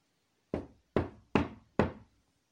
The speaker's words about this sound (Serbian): Kuc, kuc! Mali zekan kuca na vrata ježeve jazbine.